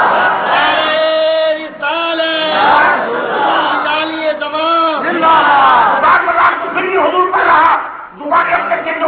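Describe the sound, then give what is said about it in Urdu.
A crowd shouts the takbir chant, Allahu Akbar, in response. Loud massed voices ring out in sustained chanted phrases separated by brief gaps. “نعرہ تکبیر”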